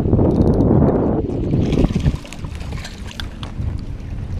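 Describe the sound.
Wind gusting over open water during boat fishing, a loud, steady rushing noise that eases partway through.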